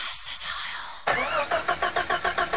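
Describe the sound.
Car engine starting as a sound effect in a radio advert for a car servicing garage: a second of steady hiss, then a loud run of rapid, rhythmic chugging pulses as the engine turns over.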